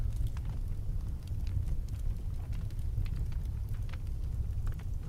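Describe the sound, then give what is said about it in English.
Crackling fire ambience played as background sound. A quiet, steady low roar runs throughout, sprinkled with many small pops and snaps. “We're just gonna hear some louder fire music while I drink some water and get ready to tell you one of the tales”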